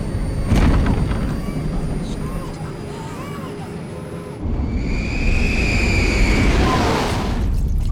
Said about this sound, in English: In the freight hold, containers strain with the acceleration. The black casket is strapped to the floor at the very front of the hold. With a bump, the aircraft leaves the runway.